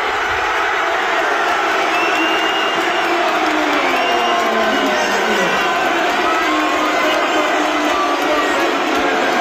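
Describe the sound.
A packed town square erupts in cheering as a crowd celebrates its champions: a dense, loud, continuous roar of many voices with whoops and shouts, sustained at steady volume throughout.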